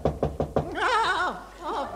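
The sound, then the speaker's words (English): Four sharp knocks at a door in a radio comedy, evenly spaced and quick, followed at once by a wavering, sing-song voice. “Oh, that must be the Prime Minister at the door. Yes, that must be the Prime Minister. Coming, Anthony. Coming.”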